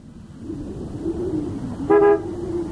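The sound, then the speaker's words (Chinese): Sedan arriving with a low, steady engine hum, then one short, bright car-horn honk near the end before the engine drone continues. “在板垣家门口，板垣的轿车开了过来”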